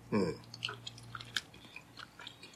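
Someone chews chewy green tea bread filled with green tea cream. A short vocal sound comes first, then many faint, moist chewing clicks in an uneven rhythm.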